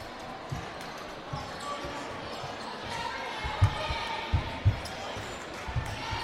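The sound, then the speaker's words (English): Basketball dribbled on a court floor during a girls' basketball game: a few dull, low thuds stand out over a steady background din. “with the basketball as she put it on the floor into the lane, commits the double dribble”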